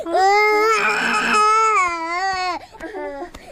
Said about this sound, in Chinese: 谁抱都哭，这孩子。 那小孩哭不是正常的吗？